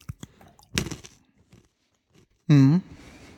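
Crunching on a snack mix of peanuts and peas: a few crisp, brittle bites in quick succession, then a short voiced sound near the end.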